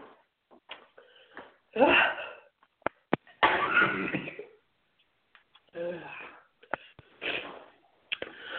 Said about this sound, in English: allergic reaction breakdown, coughing, sneezing. We don't have a mute button.